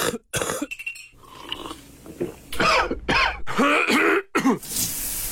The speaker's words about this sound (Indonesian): Jangan biar batuk sakit tekak kacau hari anda.